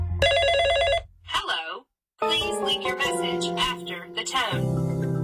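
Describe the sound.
A telephone rings unanswered, a missed call. A bright, warbling electronic ring bursts out at the start, then a short silence follows before a busy spread of other tonal sound.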